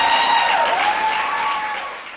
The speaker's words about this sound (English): So let's give her another round of applause.